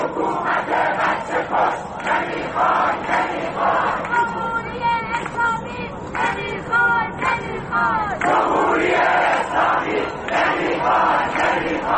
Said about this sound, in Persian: مردمی که در گذرگاه ها علیه دیکتاتوری شعار می دهند و حکومت را به کشتار کودکان متهم می کنند.